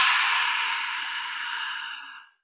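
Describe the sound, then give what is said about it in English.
A deep breath out through the mouth, heard as a single long, airy, steady exhale of about two seconds that fades away at the end. “Take a deep breath in through your nose to smell the rose, and a deep breath out through your mouth.”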